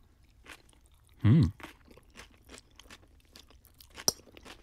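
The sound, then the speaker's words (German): Crunchy chewing of a rice noodle salad with grated vegetables: one loud crunching bite, then a string of softer, fainter chews and a sharp click near the end. “Ist das gehobeltes Gemüse? Karotte? Sellerie? Keine Ahnung. Also es ist ein Reisnudelsalat nach einem Rezept. Sag ich doch. Ja, da habe ich gleich noch eine Frage an unsere Community. Aber ich probier mal erst.”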